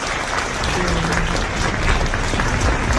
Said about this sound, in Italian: L'applauso, tutto per te.